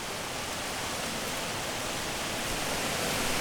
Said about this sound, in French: Là, on se retrouve vraiment juste devant ce qu'on appelle cette fosse de dissipation. Donc l'énergie se jette dans un trou d'eau qu'elle a elle-même créé.